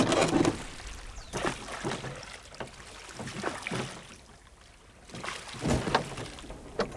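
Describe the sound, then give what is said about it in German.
A rowboat with oars is rowed across a lake, giving repeated soft watery splashes and swishing strokes at an uneven rhythm, with no voices. “Aber Sophie entdeckte ein Ruderboot. Es war halb an Land gezogen. Im Boot lagen auch ein paar Ruder.”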